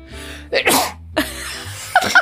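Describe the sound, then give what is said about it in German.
A forced sneeze on command, aimed near a microphone: a few sharp, breathy bursts, with the loudest blast early and smaller explosive puffs following, with no talk. “Ich kann auf Kommando niesen.”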